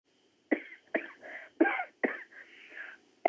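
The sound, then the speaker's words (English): Several short, quiet coughs from a person with an allergy, each a sharp burst with a brief raspy tail, spaced irregularly with short pauses between them. “Sometimes I'm still coughing. Oh. I get some allergy, you know.”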